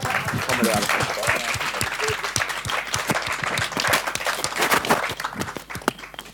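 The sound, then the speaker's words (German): An audience at a slide presentation applauds with dense, sustained clapping that stays loud throughout and thins slightly at the very end. “Ich würde mal einen Applaus.”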